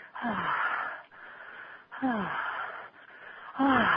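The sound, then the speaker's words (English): Deep, uncontrolled breaths are let out three times, each a long, loud rush of air. Every exhalation opens with a wheezy, voiced moan that slides downward in pitch. “I put in more wind, more energy, more spirit into my breath, but it's always, it's never a controlled exhalation.”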